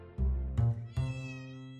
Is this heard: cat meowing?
yes